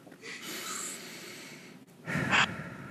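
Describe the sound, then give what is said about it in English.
A person takes a slow, deep grounding breath: a long, soft inhale followed by a stronger, airy exhale, heard alone and fairly quiet. “All right, grounding breath.”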